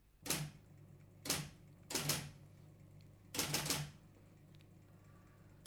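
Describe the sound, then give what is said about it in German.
Typewriter keys clacking in an office, faint short bursts of rapid strikes separated by quiet pauses. “hör endlich auf zu tippen. Du machst mich ganz nervös.”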